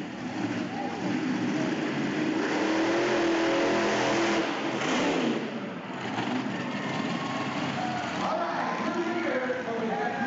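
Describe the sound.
Monster truck engines revving at a monster truck racing event held at a rodeo stadium in Springdale. A loud, continuous roar rises and falls in pitch, with a brief dip midway.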